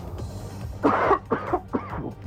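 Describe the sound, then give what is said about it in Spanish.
A short coughing fit: a few quick, rough coughs in a row, moderately soft, with no other voices. “me dio un ataque de tos”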